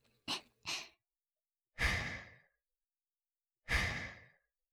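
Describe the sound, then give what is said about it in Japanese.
Blowing on hot miso soup to cool it: two short soft puffs, then two longer breathy blows, each a steady rush of air, heard alone. “喜んでくれるなら、味噌汁も、ふうふうしてあげるわ。”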